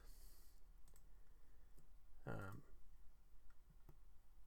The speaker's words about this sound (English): I apologize if you can hear my typing right now. I got this loud keyboard.